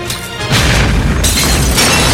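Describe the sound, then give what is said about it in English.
A loud explosion from a bundle of taped-together aerosol cans blowing a hole in a fence: a sudden heavy boom with a dense, rumbling roar that stays loud to the end. “They blow a hole in the fence.”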